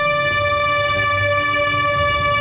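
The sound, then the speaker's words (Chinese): A loud, sustained horn blast signals a self-drive tourism convoy pulling out of a square to set off along Jilin's G331 highway. The single steady, bright, tonal note holds unbroken for the whole clip. “上午11时，随着一声鸣笛，车队缓缓驶出广场”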